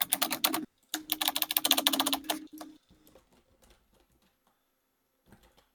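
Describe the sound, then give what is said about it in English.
Typing on a computer keyboard gives rapid, dense keystroke clatter for almost three seconds, broken by one brief gap. Then a few faint, scattered clicks follow before the sound trails off into near silence. “Type it in right now.”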